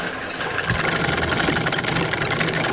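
A thread-twisting machine winds yarn into a bracelet after being switched to a higher speed, giving a fairly loud, steady mechanical whirr and drone that runs without a break for the whole stretch.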